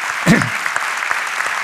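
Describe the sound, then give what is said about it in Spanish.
Audience applause at a university innovation fair: a dense, steady wash of clapping runs throughout, with a brief louder low burst near the start, then an even level to the end. “Por favor, le podéis aplaudir también, porque esto tiene un mérito extraordinario.”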